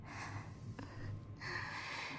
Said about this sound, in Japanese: なんだか息が荒くなってきちゃったね。ふうふうしちゃった。